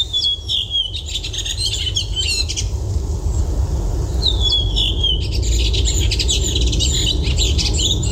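Thrush song recorded outdoors: two stretches of clear whistled phrases and quick trilling notes over a steady, low, rushing background noise, with no voices.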